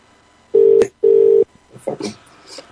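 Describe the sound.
Telephone call ringing out: two steady, mid-pitched tone bursts of roughly equal length, each followed by a short gap, then a voice begins talking on the line.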